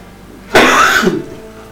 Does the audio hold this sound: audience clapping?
no